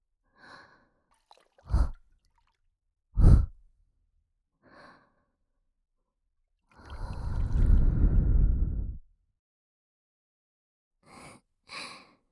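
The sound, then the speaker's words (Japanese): Breath blown into the ear: a few short, airy puffs, then one long, steady blow of about two seconds, followed by two more quick puffs, soft and breathy with no talking. “耳の中にコショコショってなるように息を吹きかけてみました。”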